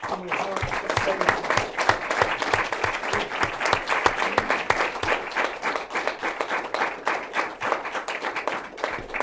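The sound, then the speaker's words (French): Audience applause welcoming guests at a French talk event, dense, lively clapping that stays steady and fairly loud throughout without letting up. “je vais vous demander donc, puisqu'il est arrivé, d'applaudir Jean-François Lavigueni.”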